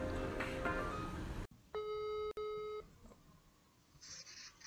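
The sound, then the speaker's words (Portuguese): Dialing and ringing tones for an outgoing phone call: a steady, harmonic electronic tone holds for about a second, breaks off briefly, then resumes before cutting out into quiet. “Bora ligar para Ana agora?”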